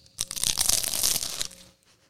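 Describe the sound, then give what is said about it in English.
Crunchy bite into a pastry lobster tail, not real lobster: one loud, dense burst of crackling and crunching lasts over a second, then fades quickly to quiet. “Ooh, that's crunchy. You got to do that in the mic. We're eating one of these lobster tails. I'll get back to what Wes Craven was doing, but now I'm going to bite it because I got to do it in the mic.”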